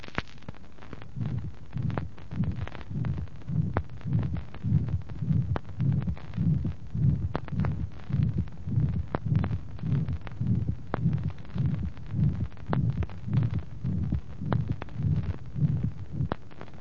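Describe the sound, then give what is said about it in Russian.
Recorded heartbeat with a systolic murmur, loudest at the second to third intercostal space left of the sternum, with a split or loud pulmonary second tone; many steady, regular low thumps with a soft whooshing murmur between them. “систолический шум с максимумом звучания во втором-третьем межреберье слева от грудины. Второй тон надлегочной артерии обычно расщеплен или усилен, что и отмечается в представленной записи.”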